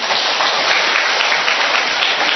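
Audience applause at a church gathering, dense and loud continuous clapping from many hands that holds steady for the whole short stretch.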